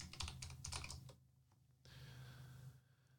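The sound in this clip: Typing on a computer keyboard: a quick run of crisp, clattering key clicks that thins to a few scattered taps, then a steady faint hiss with no voices.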